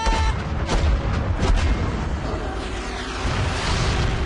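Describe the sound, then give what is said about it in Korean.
Heavy weapon fire: a couple of sharp booming blasts over a dense, continuous, loud roar of rumbling noise that stays strong throughout. “적군 출현! 적군 출현! 발사 준비! 발사!”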